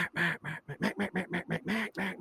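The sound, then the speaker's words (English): Quacking from a duck call imitating a hen mallard: a steady, rhythmic series of many short, raspy, nasal quacks blown back to back at an even pace. “ready to keep transitioning from this hen mallard that we're emulating the girl duck when we duck call.”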